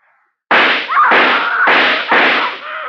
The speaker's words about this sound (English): Just want to take the rest of the bullets out of this gun, that's all.